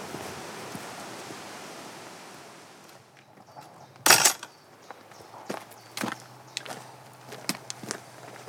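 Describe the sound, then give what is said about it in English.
Footsteps on a footpath beside a church beck: a steady rushing noise fades out, then one loud burst is followed by several scattered, irregular footfalls. “We'll walk a little bit further along the church beck.”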